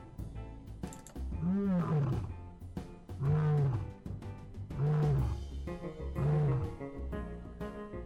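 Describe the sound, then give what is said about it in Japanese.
A lion roars in four deep, throaty bursts, each a loud, rough rumble that rises and falls and ends in a vibrating growl, with short pauses between them. “ライオンの声ってこんなんだっけ。”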